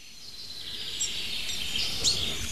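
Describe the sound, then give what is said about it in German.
A blackbird sings in the background, faint high warbling phrases rising over a steady soft hiss of outdoor ambience, with a couple of brighter chirps near the middle and end and no voices. “Und natürlich im Hintergrund die zweite Welle der Amsel.”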